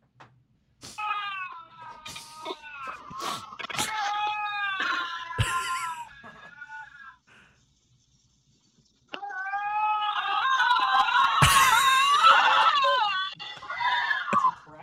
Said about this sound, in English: I think it's two lynxes.